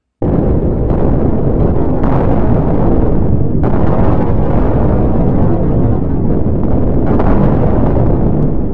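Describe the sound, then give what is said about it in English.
Powerful energy blasts are traded between two fighters in a battle. Loud, continuous booming rumble is punctuated by a few sharp explosive bursts. “Ka and Nova exchanged power blasts at each other with enough force to make the Pyramid of Knowledge itself shudder to near destruction.”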